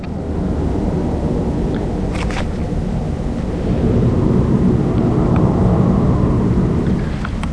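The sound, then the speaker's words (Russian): A helicopter flies over the city as a steady, dense low roar that holds for the whole clip and grows slightly louder about halfway through, with no voices. “Слышен шум вертолета в небе над городом.”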